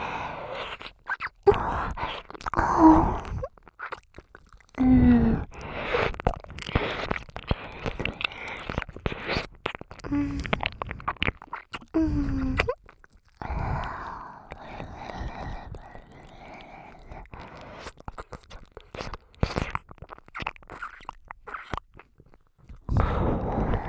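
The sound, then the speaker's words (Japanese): Wet ASMR mouth sounds of nibbling and eating an ear, with many soft crunchy bites and smacks in uneven bursts separated by brief pauses, running throughout. “お耳おいしい。”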